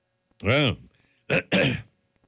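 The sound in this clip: A person clears their throat with food stuck in it after eating pumpkin pie: one longer rough, voiced rasp followed by two shorter, harsher bursts close together, loud and without talk.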